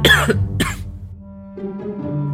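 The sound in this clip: Light coughing: two short, dry bursts in quick succession, followed by a brief low vocal sound.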